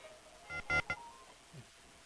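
Telephone tones on a call-in phone line, three short, bright beeps in quick succession, then a quieter, fainter blip, all over a low background hiss.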